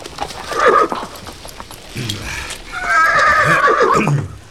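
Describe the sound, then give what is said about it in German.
A horse being ridden lets out a loud, drawn-out whinny with a wavering, falling pitch. Hoof clip-clops sound around it, and shorter snorts and calls come earlier. “Kurze Zeit später saßen alle wieder auf ihren Pferden.”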